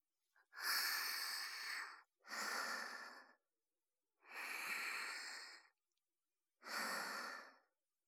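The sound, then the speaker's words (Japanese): Slow, deep human breathing: four long, airy breaths separated by short pauses, soft and breathy, with no speech. “ねえ、このまま一緒に深呼吸しよう。”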